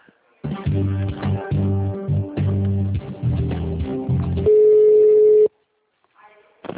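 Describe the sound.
A telephone line tone while a call is transferred to another extension: a steady, even-pitched tone holds for about a second after several seconds of choppy, band-limited sound, then a brief quiet gap.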